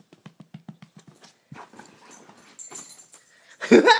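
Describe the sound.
An excited dog makes a quick run of short rhythmic pulses, then soft whimpering noises, and ends with a louder sudden burst.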